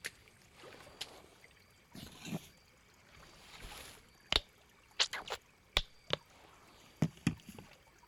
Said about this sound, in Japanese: ではお背中をお流しいたします。